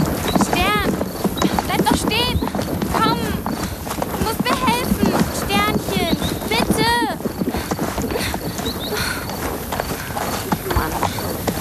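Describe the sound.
A horse bolts across a pasture at night, its rapid clip-clop of hooves running steadily throughout, with voices and other busy sounds layered over the galloping.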